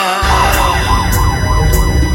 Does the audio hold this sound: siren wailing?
yes